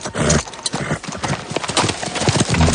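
Horse hooves clop on a trail in a Western setting as riders' horses walk. The hoofbeats are dense, loud and continuous, and the knocking rhythm never breaks.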